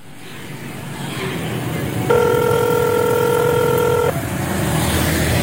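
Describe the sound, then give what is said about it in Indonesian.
An unanswered phone call's ringback tone: a single steady electronic tone lasting about two seconds, set against continuous road-traffic rumble. “Aduh, kenapa sih gak diangkat teleponku? Berkali-kali aku hubungi gak bisa.”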